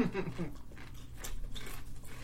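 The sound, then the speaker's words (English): Sweet pickle potato chips crunch in a few crisp, fairly faint bites. A voice is heard briefly at the start. “So, try one of the potato chips. All right, we're going to crunch now.”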